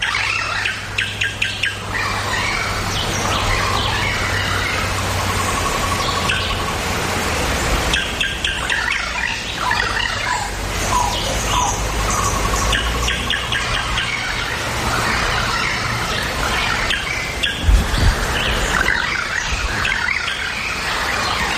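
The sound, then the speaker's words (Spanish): Birds squeal, squawk and chirp densely through tropical forest ambience, recorded in a patch of native jungle on a path to a waterfall. Overlapping calls fill the scene continuously at a fairly loud, steady level, with no voices. “Esto está grabado ayer mismo, a 20 kilómetros de Trinidad, en una mancha de selva todavía tropical auténtica, camino de una de las cataratas que fui a visitar”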